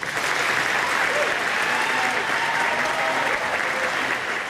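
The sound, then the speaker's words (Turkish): Sustained applause from a crowd for British Prime Minister Keir Starmer as he announces his resignation after a local election defeat. The clapping is dense and steady, with no break from start to finish. “İstifasını açıklarken gözyaşlarını tutamadı, dakikalarca alkışlandı.”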